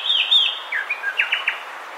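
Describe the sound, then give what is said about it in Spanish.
A sepia-brown wren, a 17 cm dark brown bird with a whitish throat and barred wings and tail, sings in Caldas. It gives a faint series of short, high whistled notes, several of them quick downward slurs. “Escuchamos al cucarachero sepia”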